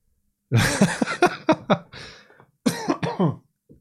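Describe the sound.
Harsh, phlegmy coughing and throat clearing in two bursts of several hacking coughs separated by a short pause, with a faint short sound at the end.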